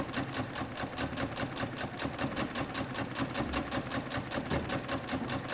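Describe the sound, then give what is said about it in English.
Sewing machine stitching a tailoring seam close to a folded fabric edge, with a fast, even run of mechanical stitch beats that holds a steady pace throughout. “After finger pressing, stitch on the machine close to the folded edge, making sure that the body of the material is pushed to one side, where it won't interfere with stitching the seam.”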